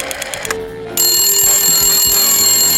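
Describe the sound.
A telephone ringing while a call is placed to order a cake: a loud, steady, bright high trill that starts about a second in after some softer clatter and continues without a break.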